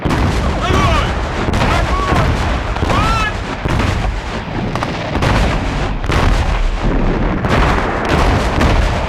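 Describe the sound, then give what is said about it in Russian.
Explosions of falling artillery shells pounding a riverbank in a war film, heard as a dense, continuous roar of booms and gunfire with no quiet gaps throughout. “Расположенный за переездом берег покрывают взрывы падающих снарядов.”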